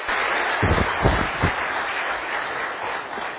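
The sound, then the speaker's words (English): Audience applause welcomes a pastor to the stage at a church service, a steady wash of clapping with a few sharper bursts of claps early on. “let's put our hands together and welcome Pastor Shahram Hadian”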